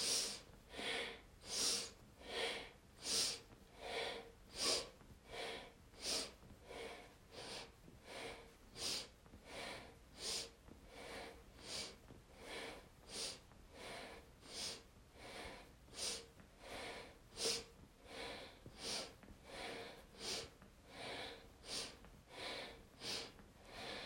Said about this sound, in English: Now let's go together. Inhale up, exhale down, breathe through the nose and keep on going.